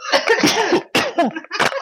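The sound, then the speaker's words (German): A person coughing in a few rough, voiced, throaty bursts with short gaps between them, loud and close, with no other talk. “Jetzt muss ich mal husten, ganz kurz.”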